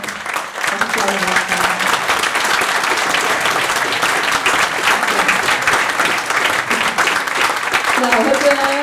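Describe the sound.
Sustained audience clapping at a peace movement conference as a guest speaker is introduced, a dense, even roar of hands holding steady for about nine seconds, with a few voices audible near the start and end.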